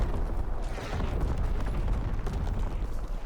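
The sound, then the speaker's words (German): Artillery explosions in a video game, a heavy low rumble of blasts merging into one continuous roar with no clear gaps. “Oh, die werden aber direkt von der Artillerie.”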